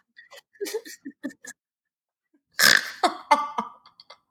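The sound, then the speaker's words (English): A snort, a loud, noisy burst near the middle set among a run of short, choppy throaty bursts before and after it, with no clear talk. “I'm sorry for the snort.”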